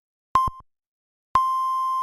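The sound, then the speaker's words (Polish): Hourly time signal beeps on a radio station: a short, pure mid-pitched tone, then about a second later a longer sustained tone at the same pitch, clean and alone. “Wybiła ósma w Radiu Meteor.”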